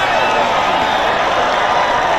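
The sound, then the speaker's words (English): Spectators cheer and shout at a cheese-rolling race as competitors chase a big wheel of cheese down a rough, steep hill, making a loud, constant roar without a break. “This big wheel of cheese that gets bowled down a rough as anything hill and people chase it. This year, 24-year-old German guy, a YouTuber, won it, beating the guy that's won it 23 times before. And here's how the crowd were going and the competitors.”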